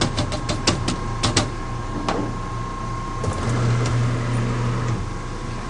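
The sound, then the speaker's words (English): Fabric tacked on a frame is placed into a curing oven after a chemical bath and drying, bringing a few sharp clicks and knocks, then a steady low mechanical hum near the end. “And then it goes into the oven at eggs temperature to cross-link with the material.”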